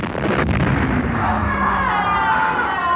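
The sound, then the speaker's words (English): A grenade explosion, a brief sharp crack followed by a loud, sustained roaring rumble that continues through the whole clip. “please push wagons toward the grenade so that it kills both freaking Sykes and wagons at the same time, and we are saved. Okay, I pushed him. And it explodes.”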